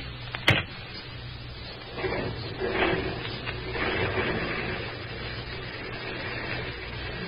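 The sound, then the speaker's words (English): A car drives up in an old radio drama. A faint engine rumble swells and then settles into a steady low hum, and a sharp click comes near the start. “Here comes Denny with my car now.”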